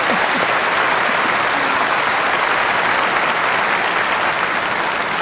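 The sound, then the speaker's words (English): A crowd gives a loud, sustained round of applause. The clapping is dense and even and holds at a constant level from start to finish. “Can we just give that another round of applause?”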